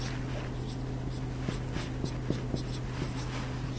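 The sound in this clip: Writing on a board, faint and quiet: a few soft taps and scratches of strokes over a steady low hum.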